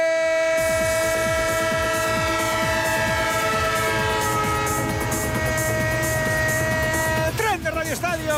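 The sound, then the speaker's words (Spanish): A train sound effect: a loud, sustained horn chord rings over rhythmic clickety-clack of wheels on rails, then the horn bends downward in a brief falling glide near the end. “El tren de Onda Cero, el tren de la competición, el tren de la Liga.”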